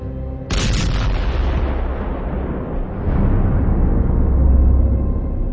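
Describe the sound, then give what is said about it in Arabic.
A gas leak explosion in a hotel hits with a sudden, loud blast, then rolls into a long, heavy roaring rumble that surges again partway through. “تسريب غاز بسيط كان قادر انه يسبب كارثة تجيب عالي المكان واطيه. خرجت من الفندق وبعت وانا مستني في لحظة اسمع انفجار.”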